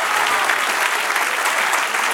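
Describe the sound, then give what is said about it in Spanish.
A church audience applauds during a Spanish-language sermon. The clapping is dense and steady, a continuous wash of many hands at an even loudness throughout, with no voices standing out. “Denle un aplauso al que vive.”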